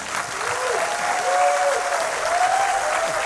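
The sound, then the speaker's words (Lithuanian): Audience applause welcoming a guest professor onto a show: a steady, dense roar of clapping that stays loud and even throughout. “Ponios ir ponai, pasitikime plojimais profesorius Virginijus Šikšnys.”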